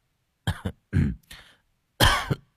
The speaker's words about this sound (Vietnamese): Người thanh niên húng hắng ho vài cái rồi ngắt lời